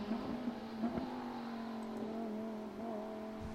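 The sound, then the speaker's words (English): Low engine rumble of a Lamborghini Super Trofeo race car entering turn one at Watkins Glen, off the throttle: a steady, droning tone with layered harmonics that stays level and continuous throughout, with no voices. “Good sound, whoever was just going into turn 1, even though they were well off the throttle going into that first corner. It was just a lovely little rumble.”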